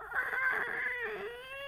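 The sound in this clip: A voice imitates a gander goose swooping in with a short, nasal, honking squawk that is fairly loud and sits alone without other talk.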